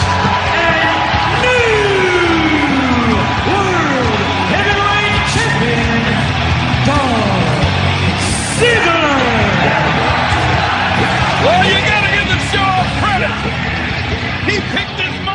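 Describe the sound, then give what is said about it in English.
A wrestling arena crowd in New Jersey cheers wildly in a continuous loud roar, with yells, whoops and shouting voices rising and falling throughout. “The crowd in New Jersey went freaking berserk, where I thought the roof was going to come off that place.”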